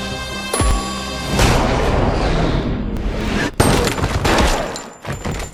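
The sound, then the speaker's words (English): Gunfire in a video game, opening with a sharp shot and then a sustained, heavy booming roar, with another sharp crack partway through the dense barrage. “I'm just gonna shoot him in the leg.”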